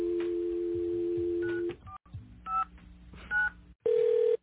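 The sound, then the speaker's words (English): Telephone number being dialed: a steady tone gives way to a few short keypad beeps separated by pauses, followed by a louder sustained tone at the end. “I'm going to go ahead and dial a number now.”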